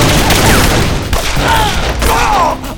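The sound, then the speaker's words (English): Gunfire in a shootout: a loud, dense fusillade of overlapping shots rattles continuously for over two seconds before tapering off. “Instead, they twisted toward him, and their guns came up spouting flame.”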